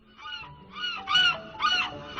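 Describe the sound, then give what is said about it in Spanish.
A seagull calling near a beach bar in Málaga, giving about five harsh, honking cries in quick succession, loud and alone. “Donde hay un chiringuito, hay una gaviota que suena así de maravillosa.”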